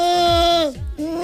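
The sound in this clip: A human voice imitates a goat's bleat as a vocal warm-up before singing. Two wavering, nasal bleats: a long first one whose pitch drops at the end, a brief break, then a second, steadier one.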